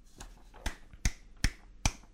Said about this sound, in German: Hermann klatscht Beifall.